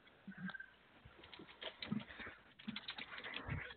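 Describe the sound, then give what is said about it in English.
Typing on a computer keyboard, faint: irregular, light key taps in uneven bursts, with a few slightly heavier clacks mixed in. “Oh come on, let me type right.”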